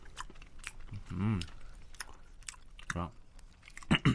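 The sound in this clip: Chewing and biting on pizza: quiet, soft mouth sounds with a few crunchy bites and brief vocal murmurs between them.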